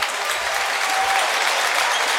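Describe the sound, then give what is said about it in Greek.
Crowd applause at a basketball game for Aris's good defence: loud, dense clapping from the arena stands, sustained and even throughout without any talk over it. “Χειροκρότημα από τον κόσμο για την καλή άμυνα του Άρη.”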